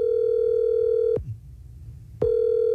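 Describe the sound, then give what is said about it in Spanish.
A telephone rings in the earpiece while a call is being dialled. A steady low tone plays, breaks off for about a second, then starts again, with no voices. “Está marcando.”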